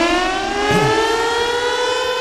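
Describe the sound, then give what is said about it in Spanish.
A siren wails, held as a steady, strongly harmonic tone that sounds loudly and continuously from start to finish without pausing. “¡Ahí está la sirena, señores!”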